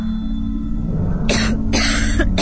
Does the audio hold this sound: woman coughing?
yes